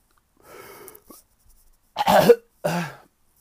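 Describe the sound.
A performer makes gagging and retching noises. A faint first heave is followed by two louder, harsh, throaty gags in quick succession.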